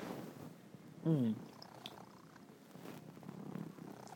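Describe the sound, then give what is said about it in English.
A cat purrs during a home conversation: a low, continuous rumbling purr that stays faint and even, with a brief louder moment partway through. “excuse this cat”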